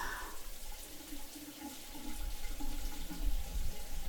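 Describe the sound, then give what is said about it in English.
A running shower gives a steady, faint hiss of falling water that grows slightly louder in the second half. “Okay, come on, let's get in the shower.”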